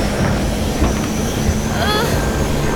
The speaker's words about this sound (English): The helicopter! It's starting up!